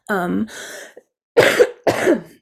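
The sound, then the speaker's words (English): A person coughing and clearing their throat in a few harsh, rough bursts separated by short gaps, with the last two bursts loudest; no talk is heard. “So I'm sorry you have to hear me cough.”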